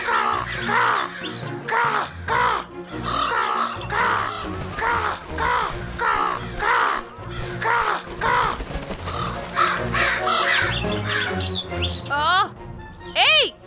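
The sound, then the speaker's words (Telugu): Crow cawing from a tree: many harsh, raspy caws come in a steady repeating series, with a few quicker, higher squawks toward the end. “ఆ కాకి అక్కడ ఏం చేస్తుంది? హే, shoe shoe, నా చెట్టు మీద నుంచి వెళ్ళిపో వెళ్ళిపో.”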